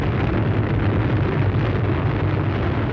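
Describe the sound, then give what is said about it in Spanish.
A cartoon energy blast explodes against the ground at someone's feet, making the floor shake: a loud, dense rumbling roar that holds steady for about three seconds without a break. “Y dispara a los pies de sus secuaces, que sienten cómo el suelo tiembla y parece estallar.”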